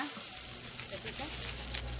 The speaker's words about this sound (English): is frying up onions and pork for a quick, hearty stew.